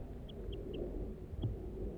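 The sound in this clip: A male bird calls near its nest from a pitch pine. Four short, high chirps come through, three in quick succession and then one after a pause. They are faint over a low background rumble.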